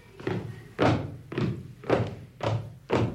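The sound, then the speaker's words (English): Footsteps of a person walking across a room from left to right, made as a sound effect: six evenly spaced, moderately loud thuds in a steady walking rhythm. “I don't know whether I can make the sound of a person gradually walking across the room. Let's see if we can do it. From left to right.”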